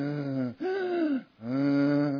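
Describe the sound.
A human voice imitates the creak of a handmade wooden rocking chair as it rocks, making three long, breathy voiced groans that sound like someone panting for breath. The middle groan is slightly higher in pitch.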